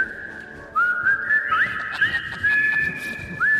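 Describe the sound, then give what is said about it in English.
A person whistles a melody into a microphone with reverb during a stage performance. The clear, high tone slides between several held notes, heard alone without voices. “And then I really whistle along to this. And I put reverb in the mic.”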